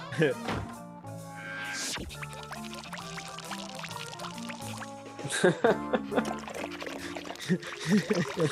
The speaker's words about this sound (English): Fills his own bowl. With his own drool. Like, that was a whole, like, 10 seconds of nothing, but it was so funny.